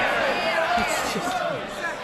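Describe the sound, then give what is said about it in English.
Members of Parliament cheering the Prime Minister in the House of Commons, a dense, sustained roar of many overlapping voices that rises and falls unevenly throughout. “Mr. Speaker, the sound you hear is them cheering the Prime Minister, pulling the wool over their eyes.”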